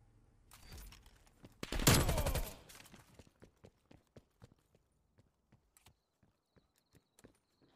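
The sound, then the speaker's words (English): Gunfire in a video game shooter, as the player comes under fire on an open map: one dense, loud burst of rapid shots, then a steady run of sharp, evenly spaced clicks that fade quieter. “Oh, you gotta be. I'm getting shot at.”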